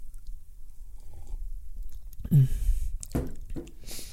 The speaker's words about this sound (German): ich, ich nehme nochmal einen Schluck Kaffee, tut mir leid.